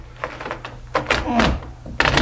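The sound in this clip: Dull thunks as a sangria watermelon is cut and pops open. A few soft, hollow knocks are spread across a short stretch.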